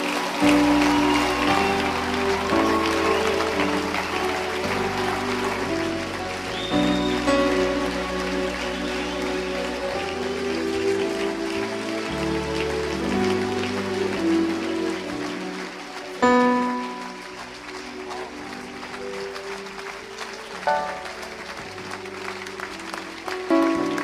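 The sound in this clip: An audience applauds in church during a thank-you praise offering: a dense, continuous patter of many hands that holds steady for the whole stretch, with sustained musical tones running beneath it.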